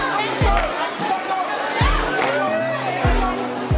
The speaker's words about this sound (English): That is the sound of humanity. That is the sound of Black Friday.